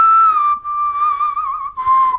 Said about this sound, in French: En tout cas, tu siffles très bien